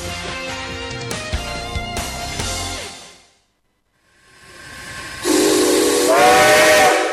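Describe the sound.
Steam train whistle used as a radio program's jingle effect: a loud whistle blast fades out, then after a moment of silence a second loud shriek of whistle and hissing steam follows.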